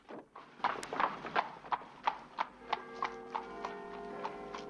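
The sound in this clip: Hooves of a horse pulling a horse-drawn cab outside a villa on a snowy night, many even clip-clop strikes at a steady walking pace, crisp and moderately loud with no voices.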